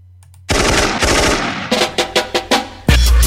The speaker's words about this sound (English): Food as a machine gun. I apologize in advance.